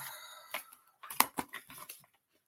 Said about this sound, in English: So let me see what card I can find in here for you. I'm just going to shuffle them a little bit.